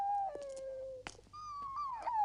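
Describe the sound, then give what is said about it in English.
A dog howling in a restaurant as it jumps onto a diner's lap: a long, faint, steady tone, a short break with a small knock, then a second, higher tone that wavers and falls. “Glare at the dog, jumping on my lap and howling like a banshee.”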